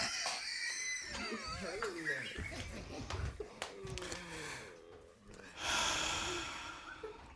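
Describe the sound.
A long, forceful exhale rushes out as a breathy hiss, following stretches of huffing, snorting breath sounds mixed with people talking.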